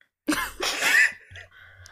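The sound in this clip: A person voices a cough for a character during a tabletop role-playing game: one rough, raspy burst lasting under a second, heard alone, with a fainter low sound trailing after it.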